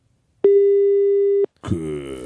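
An unanswered telephone call gives one long, steady, mid-pitched ringing tone lasting about a second, then cuts off.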